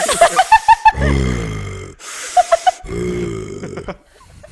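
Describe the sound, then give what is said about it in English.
A voice imitates the heavy, mechanical respirator breathing of a masked villain, making two long, hoarse, rasping breaths. Each breath comes after a short run of squeaky clicking sounds. “Would you rather talk like Yoda or breathe like Darth Vader?”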